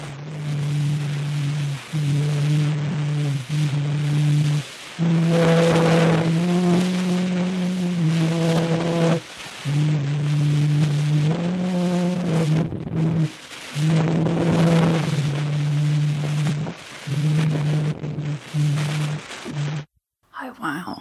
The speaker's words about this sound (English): this audio I'm about to play is... from April of 1860, and it is believed to be the earliest sound recording.